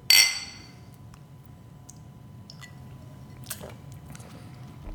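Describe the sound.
Glasses clink together in a toast over a warm, sweet drink poured from a bottle: one bright, ringing clink at the very start that quickly fades, followed by low background hum and a few faint small taps, with no talking.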